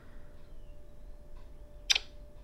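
A camera shutter snapping a photo of toys: a single crisp, brief double click over a faint, steady hum.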